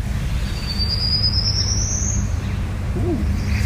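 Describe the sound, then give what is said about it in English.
An unidentified bird sings one faint, thin, high whistled note that slides slowly upward for over a second, above a steady low background hiss. “sent in a recording of this unidentified bird. We'll play it for you.”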